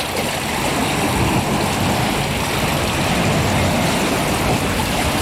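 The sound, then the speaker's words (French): Lapping water makes a dense, steady wash of splashing and hiss that stays loud and even from start to finish, with no break or other distinct sound over it. “le clapotis de l'eau et une petite horde de goélands argentés qui virevoltent autour de moi.”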